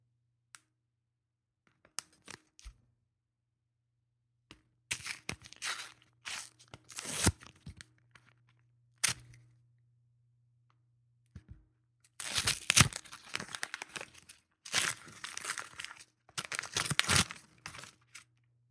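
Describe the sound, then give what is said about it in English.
Paper tearing and crinkling as an envelope is ripped open: short, scattered rips at first, then longer, denser bursts of crisp rustling toward the end, heard alone without talk over a faint steady low hum. “So if you're ready, you can go ahead and open that envelope.”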